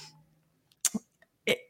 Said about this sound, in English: excuse me, a little burpity burp.